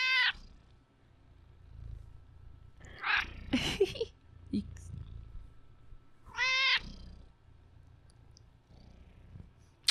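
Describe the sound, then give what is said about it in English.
A cat purring, a steady low rumble that runs through the whole clip, with a person's voice and a few brief higher vocal sounds over it. “He's purring away.”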